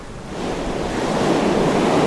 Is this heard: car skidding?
no